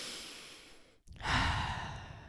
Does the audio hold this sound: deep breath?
yes

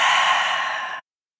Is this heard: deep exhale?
yes

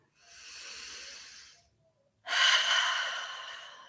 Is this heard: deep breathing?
yes

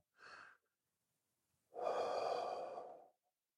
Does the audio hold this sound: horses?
no

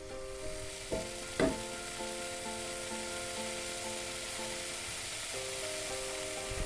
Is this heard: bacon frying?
yes

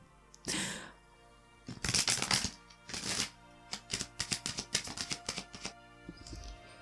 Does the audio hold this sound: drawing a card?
yes

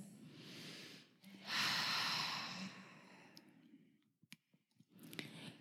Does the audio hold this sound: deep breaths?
yes

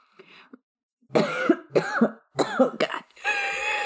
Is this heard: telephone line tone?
no

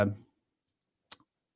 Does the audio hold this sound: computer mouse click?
yes

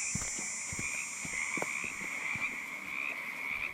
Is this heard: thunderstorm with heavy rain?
no

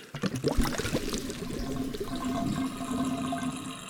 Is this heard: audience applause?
no

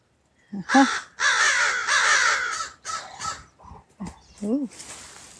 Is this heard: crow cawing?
yes

